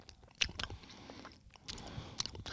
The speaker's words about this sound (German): Oh, ich habe echt Angst, hier das mit der Soße zu probieren.